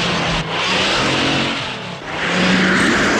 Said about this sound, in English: She squeezes between several stock cars and speeds ahead.